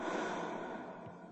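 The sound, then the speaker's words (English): A slow exhale through the mouth during a guided breathing exercise, a soft, faint, breathy rush of air that gradually tapers off, heard alone. “Inhale deeply through your nose and hold for a moment. Exhale slowly through your mouth.”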